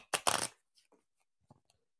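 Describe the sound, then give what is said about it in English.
A deck of cards is shuffled: a brief, quick riffling burst, then a few faint, soft taps of the cards settling. “So if you can hear, that's the sound of the cards being shuffled.”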